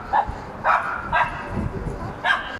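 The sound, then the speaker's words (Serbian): A dog barks four times, short, sharp yaps spaced irregularly, over the constant low rumble of wind. “Sad imamo i, i psa koje laje i vatar.”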